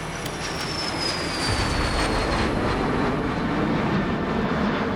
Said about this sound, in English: He watches the dials as they take off and observes how it handles.